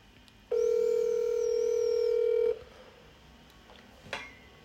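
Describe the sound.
A phone call ringing out in a single steady ringback tone, a mid-pitched buzzing hum that holds for about two seconds and then stops, followed by quiet with one faint click.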